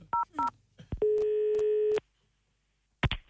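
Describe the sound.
Telephone dialing tones as a call is placed to a customer service line: two short dual-pitch beeps, then a steady tone held for about a second, a pause of silence, and a brief harsh burst at the end.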